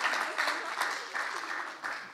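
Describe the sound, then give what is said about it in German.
Applause at a church gathering for someone who has just stood up front: a dense, steady patter of many hands clapping, mixed with some crowd noise, lasting about two seconds. “Okay, Applaus für Jakob.”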